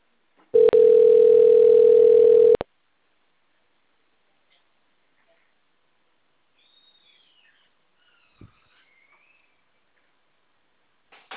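Steady telephone dial tone while a call is being placed, loud and unbroken for about two seconds, followed by near silence with a few faint, short chirps.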